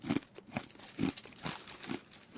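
Someone bites and chews a crunchy Napolitan ketchup-flavored snack, making a quiet series of crisp, crackly crunches in an uneven rhythm.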